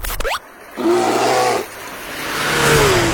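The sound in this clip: A race-car engine roar serves as a radio contest signal. Brief rising sweeps lead into a short buzzing burst, then a broad roar that swells louder toward the end.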